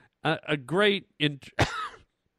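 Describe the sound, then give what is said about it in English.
A person coughs and clears their throat after swallowing a moth: a few short, voiced hacking bursts in quick succession, the last one rougher and breathier. “excuse me, God, I get choked up just talking about him. I think I just swallowed a moth, like Silence of the Lambs. There's a moth flew in my mouth.”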